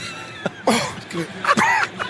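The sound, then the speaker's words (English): A man coughs and clears his throat hard after catching a fly in it. A few harsh, loud coughing bursts come in quick succession, mixed with strained voiced sounds. “I just caught a fly or something in my throat.”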